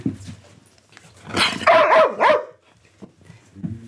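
A service dog barks on command: a few loud barks in quick succession, with softer, low yips and whimpers before and after.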